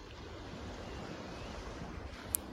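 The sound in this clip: Calm sea waves make a soft, continuous wash that stays faint and even, broken only by one brief high click near the end.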